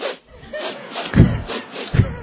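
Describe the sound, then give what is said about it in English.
A voice imitates a roomful of children sniffing, with a few breathy sniff-and-snort bursts, two of them noticeably stronger than the rest. “I was sniffing, you know, trying to actually to give the lesson, you know, without sort of interrupting them by blowing my nose. And in 5 minutes, you had 30 kids there facing me, go,”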